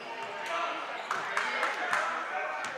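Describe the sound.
A basketball being dribbled at a high school game, a run of evenly spaced bounces under a commentator's voice and background crowd noise.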